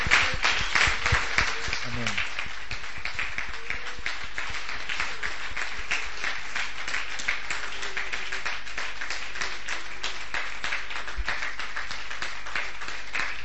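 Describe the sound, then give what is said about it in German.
An audience claps to praise Jesus during a church seminar, with dense, steady clapping that continues for the whole stretch and some voices underneath. “Let's give Jesus a big praise. Lasst uns für Jesus klatschen.”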